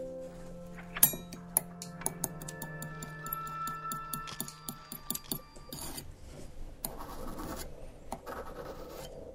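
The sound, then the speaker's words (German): A blade scrapes and chops crystal meth on a marble plate, producing many faint, quick scratches and small ticking taps in an uneven, busy rhythm. “Eine Marmorplatte, ein Röhrchen zum Ziehen, eine Karte und eine Klinge zum Klein machen. Also erstmal die Karte klein machen, mit der Klinge runterschaben und dann eine Bahn ziehen”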